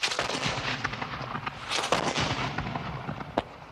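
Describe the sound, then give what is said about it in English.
An artillery bombardment of explosive rockets and shells from New Zealand's Northern War. A dense, continuous rumbling barrage is punctuated by many sharp blasts and cracks, with no break in the din. “Artillery bombardment. Explosive rockets and shells which had never been seen in New Zealand before.”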